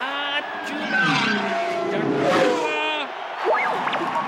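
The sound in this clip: Racing vehicle skidding and spinning out of control: a loud, continuous whining engine with screeching, sliding tones that waver up and down throughout.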